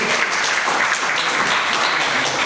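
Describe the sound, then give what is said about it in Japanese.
Applause from a gathered audience fills the whole short moment, dense and even clapping at a steady, fairly loud level without breaks. “拍手です。”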